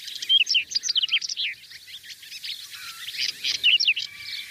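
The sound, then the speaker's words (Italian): Whinchat song, a small bird of flower-rich meadows, singing in a meadow: many quick, high, scratchy chirps and warbled phrases in busy bursts, fairly clear with no voices. “Quello che sentite in sottofondo è il canto dello stiaccino, un piccolo uccellino che abita prati estensivi diversificati e ricchi di fiori.”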